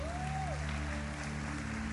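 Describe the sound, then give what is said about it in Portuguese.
Applause from an audience at a church gathering: a steady, faint patter of clapping with a brief high whistle-like tone and a low hum underneath. “Aplauda ele aí, pessoal.”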